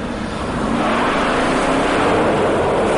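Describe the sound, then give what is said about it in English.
A Dodge Charger car drives up with a steady, loud rumbling engine roar that holds an even level throughout, with no talk. “Oh, this is when the dad drives up in the Charger. Taking it for a spin.”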